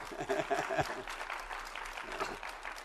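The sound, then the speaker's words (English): An audience gives a short round of applause to welcome a couple home from vacation, brisk clapping with a voice speaking over it, loudest at the start and easing off. “Oh, by the way, we have the Hoopers back from vacation. Let's give them a hand. Welcome home.”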